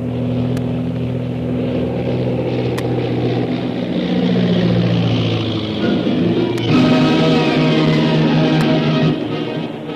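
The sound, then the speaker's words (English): A powerful seaplane's engine roars as the aircraft lands on water, a loud, steady drone whose tone shifts and swells in intensity, broken by a few brief sharp clicks. “As the powerful seaplane bearing Shanghai Lil and her captors, Carnac the Killer and Koa, made a safe landing”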